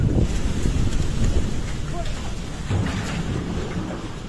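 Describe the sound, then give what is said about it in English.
Floodwater rushing towards a workman in Nepal makes a loud, constant roar, with wind buffeting the microphone throughout. “This is the sound from a video taken by a workman in Nepal who sees the water approaching and starts running uphill.”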